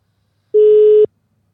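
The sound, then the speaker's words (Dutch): A telephone tone as a call is dialed: one steady, mid-pitched beep of about half a second, heard alone with no talk. “Ik ga gelijk bellen.”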